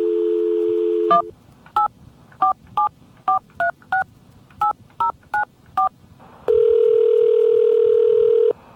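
Telephone keypad dialing tones: a steady dial tone, then about ten short, loud beeps in quick, slightly uneven succession, followed by another sustained tone.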